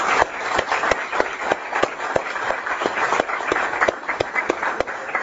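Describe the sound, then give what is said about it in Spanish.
Applause from an audience at a business presentation: a dense, noisy crowd wash with many sharp claps landing in a fairly regular rhythm throughout. “Vamos a darle un fuerte aplauso a Wilfredo Vélez.”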